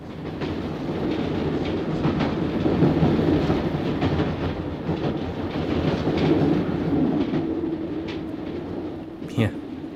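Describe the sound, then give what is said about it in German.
Train riding on rails, giving a continuous rumbling roll with a faint rhythmic clatter of wheels on the track. The noise stays steady throughout, with a brief sharp click near the end. “Da saß ich nun also im Zug nach Sea Valley.”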